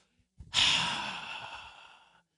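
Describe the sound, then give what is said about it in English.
A voice imitating God breathing the universe into existence: a brief soft sound, then one long, forceful breathy exhalation that rushes out loudly and fades gradually over about a second and a half. “You know how he made the universe? He breathed it into existence.”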